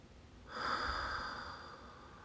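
A single long breath is drawn in during a guided breathing exercise. It starts about half a second in as a soft, airy hiss, then fades slowly and evenly, heard alone.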